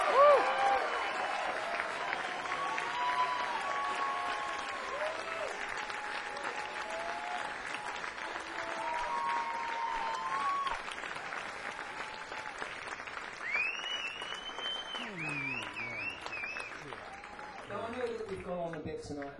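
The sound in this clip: Audience applause welcoming Rod Argent and Colin Blunstone: loud, steady clapping from a crowd that lasts throughout, with voices and cheers rising over it.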